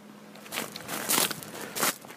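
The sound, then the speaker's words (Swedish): Footsteps crunching across the vast gravel roll-call square of the former Dachau concentration camp, a few gritty, crackling steps rising out of quiet, with the loudest crunches near the middle and end. “Det knastrar under skosulorna.”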